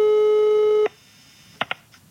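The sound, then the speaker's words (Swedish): A telephone call tone hums steadily for nearly a second, then cuts off abruptly and is followed by a few brief, faint blips, with no voices. “Men nu kan vi väl ringa henne? Ja, det gör vi.”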